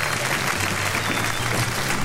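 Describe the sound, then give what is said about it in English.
Canned studio audience applause on a radio comedy programme, a short burst of dense, even clapping that stays at a constant level from start to finish. “Get that recorded audience out of here. Yes, you lot. Go on, clear off.”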